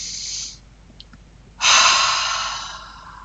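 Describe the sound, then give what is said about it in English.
A person does breathing exercises, inhaling through the nose and exhaling through the mouth: a short, soft breath is followed after a pause by a louder, longer, forceful exhale that slowly fades. “So in through your nose and out through your mouth. It's called ha breathing.”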